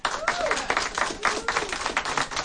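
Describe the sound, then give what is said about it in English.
Small live studio audience applauding during a special teach-in in Berkeley, California on the threat of war against Iraq: a dense, steady patter of clapping hands that swells and ebbs in uneven waves throughout. “And of course, you can hear we have a live studio, small studio audience here.”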